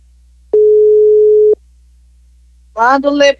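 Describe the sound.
A telephone ringing tone sounds while a live call is being placed: one loud, steady, pure beep lasting about a second, then silence, then a voice speaking.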